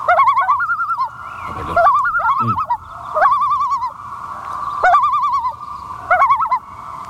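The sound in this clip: A bird's tremolo call: about five bursts of rapid, quavering, mid-pitched wavering notes repeated at intervals, loud and clear with no talk.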